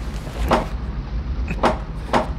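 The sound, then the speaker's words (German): Three dull knocks on a hatch, given as an agreed signal, come at uneven intervals over a steady low rumbling background. “Das Klopfzeichen. Der Junge ist da.”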